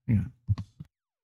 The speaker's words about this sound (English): I got something caught in my throat tonight.